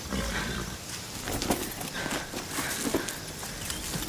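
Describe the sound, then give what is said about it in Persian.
A horse's hooves clip-clop steadily as it is ridden away, many quick, even beats, fairly faint throughout against a soft noisy background. “خدیجه تبر رو رها میکنه و سوار اسب میشه و میره”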